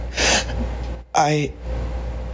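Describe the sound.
A slow, sharp inhale from a tearful young girl, a short breathy gasp followed by a brief voiced catch in the throat.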